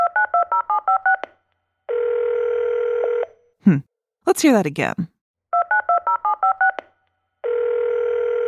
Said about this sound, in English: A telephone! A telephone.